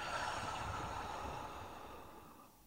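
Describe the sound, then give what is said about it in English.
A slow, breathy exhale from a relaxation exercise of breathing in through the nose and out through the mouth: a soft, airy rush that gradually fades toward the end. “Let's take a breath in through the nose and let it out the mouth.”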